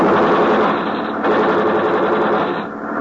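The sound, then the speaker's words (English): Sustained rapid gunfire in a video game, shots fired in front of a man, forms a loud, dense, unbroken rattle for the whole stretch, with no clear gaps between rounds. “Fire him more! We fire in front of him.”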